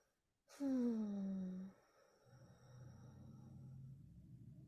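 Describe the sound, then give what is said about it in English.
A deep breath let out as a voiced sigh during an EFT tapping session: one falling tone lasting about a second, followed by a faint, low, steady murmur. “Take a deep breath.”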